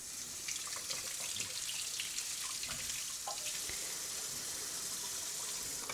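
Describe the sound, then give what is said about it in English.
Water runs steadily from a kitchen tap as tomatoes for Greek nachos are rinsed under it. The hiss is continuous, broken by small splashes and drips, with no voices. “So first, I'm going to rinse these tomatoes off.”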